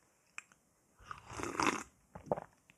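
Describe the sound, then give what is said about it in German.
Faint sipping of decaffeinated coffee from a cup: a couple of soft clicks, then a longer noisy slurp and a shorter one after it, with no talking. “Ich muss mal einen Schluck Kaffee trinken. Wirklich, Moment mal.”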